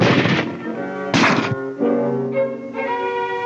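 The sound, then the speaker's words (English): Gunshot from a .30 caliber carbine fired at partitions in a weapon penetration test: a single sharp, loud report cuts through a sustained tonal background and decays quickly. “First, the 45 caliber automatic. Now the 30 caliber carbine.”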